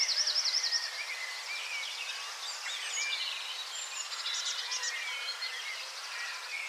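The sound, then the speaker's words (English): Blackbird song in a garden, a steady run of varied, fluting whistled phrases that continues without pause, fairly faint throughout. “After that, I became more and more interested in blackbird songs. And I started to record them in my garden.”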